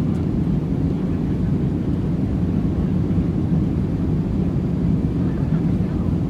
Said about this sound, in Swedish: De sätter sig i planet och lyfter.